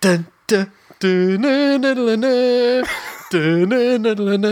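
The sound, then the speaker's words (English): A person's voice imitates the Dolmio advert jingle, singing a brisk melodic run of repeated syllables with a brief break midway before the tune resumes. “and I instantly fucking knew that that was the sound of the Dolmio ad.”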